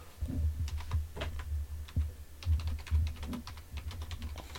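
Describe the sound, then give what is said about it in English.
Typing on a computer keyboard to enter a sports search query: many quick, irregular key clicks and taps at a steady working pace, fairly faint, with no talking. “Let's fucking type in Packers Bears rivalry.”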